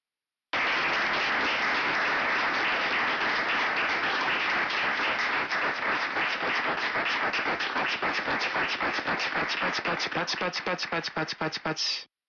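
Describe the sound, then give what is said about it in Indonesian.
Many hands clap in sustained applause, a dense wash of noise that thins into distinct, rhythmic individual claps toward the end before stopping abruptly. “Pachi pachi. Ini menunjukkan bunyi saat menepuk-nepukkan tangan.”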